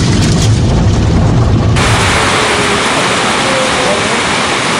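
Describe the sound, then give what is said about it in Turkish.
Heavy rain with hail during a sudden storm in Kars, a loud, dense, continuous roar whose tone shifts abruptly partway through. “Gökyüzü bir anda karardı, şiddetli yağışla birlikte dolu yağışı başladı.”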